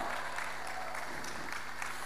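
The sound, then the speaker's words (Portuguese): Applause from an audience celebrating a radio station's 40th anniversary, a faint, steady wash of many hands clapping that continues without a break. “queria-vos pedir um forte aplauso para esta grande rádio que hoje completa 40 anos de existência, Rádio Onda Livre!”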